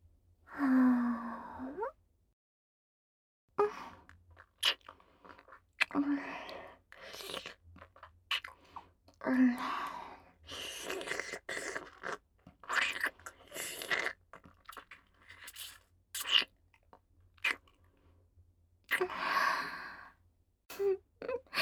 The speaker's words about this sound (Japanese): いきなり大人のキスされちゃってびっくりした？